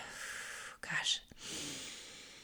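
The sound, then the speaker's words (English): Deep breathing from a guide opening a manifesting prayer: a soft, airy breath, a brief louder breathy gust in the middle, then a longer steady exhale. All of it is quiet and breathy, with no words. “I'm going to begin with some deep breaths.”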